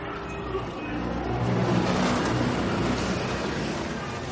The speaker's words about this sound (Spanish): Llega el autobús. La gente sube.